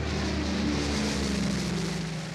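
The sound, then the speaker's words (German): Dull, unbroken droning of engines in Berlin in June 1948, a loud, dense, rumbling roar with low humming tones underneath that stays even and never lets up across the whole stretch. “Das dumpfe Dröhnen der Motoren ist zum Lebensnerv einer Stadt geworden.”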